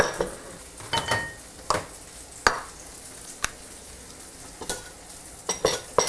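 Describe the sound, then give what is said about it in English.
Tofu sizzles as it fries in a pan, a steady soft hiss broken by many sharp scrapes and knocks of a utensil against the pan, with no talking. “going back to the tofu, it's sounding a little sizzly. I need a better spatula to get that up.”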